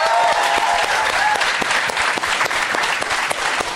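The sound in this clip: An audience claps to welcome a guest onto a show, producing dense, steady applause that stays loud throughout with no talk over it.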